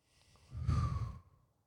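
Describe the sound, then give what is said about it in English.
A single deep breath during a guided calming exercise: a soft, airy whoosh lasting under a second, faint and alone. “let's just take one deep breath.”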